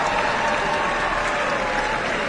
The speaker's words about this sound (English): Keep the applause going.